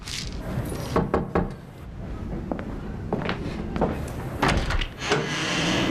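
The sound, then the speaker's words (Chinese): A tin of malted milk powder is pried open, giving several sharp clicks and metallic scrapes of the lid at an uneven rhythm over a low background hum, moderately quiet. “我上次给你拿的麦乳精，你怎么都没喝呀？ 啊，忘了，想不起来了。 我给你打开啊，记着喝。”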